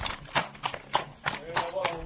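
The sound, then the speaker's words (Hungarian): Carriage horses walk at a steady pace on a farm in the buffer zone of the Balaton Uplands national park, their hooves clip-clopping in an even rhythm beneath continuous talking. “Olyan szép, egyenletesen menetelnek a lovak. Kocsis lovak, őket most éppen munkába fogják vinni.”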